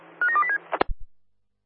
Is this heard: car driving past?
no